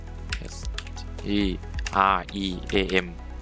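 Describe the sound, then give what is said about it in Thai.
Keys clicking on a computer keyboard as Streamlabs OBS is typed into a search box: a few quick taps followed by sparse clicks, with a voice talking over them. “ไปที่ Search ค้นหาแล้วพิมพ์คำว่า Streamlabs OBS ครับพิมพ์ตามผมเลยนะครับ”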